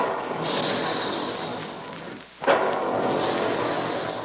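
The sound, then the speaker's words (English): A puffing gun in a Quaker cereal plant fires puffed wheat and puffed rice: a steady rushing hiss dips briefly, then one sharp burst cracks out before the hiss carries on. “Here are the big guns. That's the way they sound when puffed wheat and puffed rice are shot from guns in the Quaker plant.”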